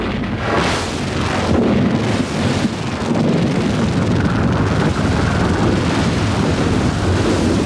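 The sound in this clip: Weapons fire and explosions from a science-fiction battle involving armoured vehicles: a loud, dense, continuous roar and rumble that runs without break, with no distinct separate shots standing out.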